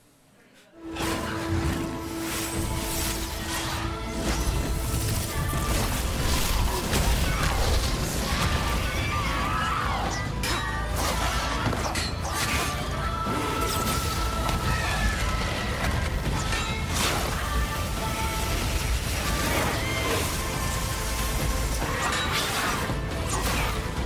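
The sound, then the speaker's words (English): Fireballs are shot at monsters in a film clip, heard as a dense, continuous action soundtrack. Whooshing blasts and crashing impacts run loud and steady throughout, with no break after the first second. “Who are you shooting fireballs at? Well, some of these monsters who I am not, in fact, killing, but I am really shooting the fireballs, so... And here it goes.”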